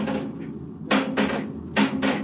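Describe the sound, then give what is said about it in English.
A metal bar knocks against a spaceship wall where a giant worm clings to the bulkhead, giving several hollow knocks, including two quick pairs, over a steady low hum. “I take this bar and knock it loose”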